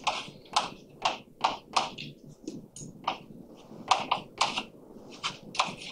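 Writing on a board during a physics lecture on a Hamiltonian density: many short, scratchy strokes and taps in an uneven rhythm, fairly faint.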